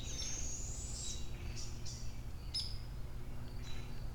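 Owl calls: a few high, thin squealing whistles over a steady low rumble, with no voices heard.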